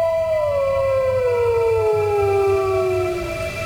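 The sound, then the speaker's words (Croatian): A wolf howls at dawn in one long, sustained, rich-toned cry that slides slowly downward in pitch, over a steady low background rumble. “Vuk? Usred zore? To ne može biti.”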